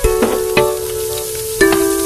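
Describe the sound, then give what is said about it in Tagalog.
Food is stirred and sautéed in a pan, with a steady sizzle broken by a few sharp scraping clatters of the utensil against the pan. “Hinahalo at ginigisa ko lang lahat.”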